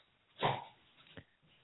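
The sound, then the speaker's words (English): A female dog gives one muffled, low bark or huff, faint and brief, followed a moment later by a softer short click-like sound. “The dog really wants to be a part of the show. Right. She's our dog.”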